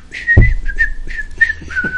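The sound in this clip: A person dressed in a bugler's outfit on a film set whistles a cheerful tune, a string of a few clear, high, short notes in a quick, lilting rhythm, loud and alone.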